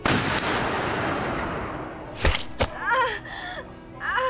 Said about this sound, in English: This isn't a lightweight gun, and it's not bullets you're shooting here.